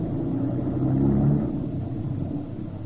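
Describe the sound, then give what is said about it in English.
A car speeding off, its engine giving a steady, loud, low rumble that holds for about three seconds without a clear rise. “Okay, honey, now drive like you never drove before.”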